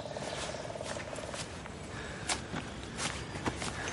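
Footsteps of a woman walking slowly with her eyes closed while someone behind her holds her shoulders and guides her: a few soft, irregular steps under a steady, dense background noise.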